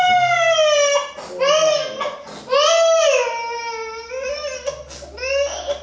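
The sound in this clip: A baby wails loudly in long, sweeping cries that rise and fall in pitch, broken by brief gasps between bursts.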